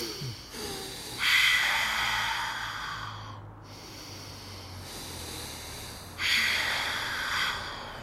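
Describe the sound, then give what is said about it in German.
Slow, deep breathing in and out: long, airy rushes of breath, two loud ones with a quieter stretch between, heard alone without talk. “Erstmal langsam tief ein- und ausatmen.”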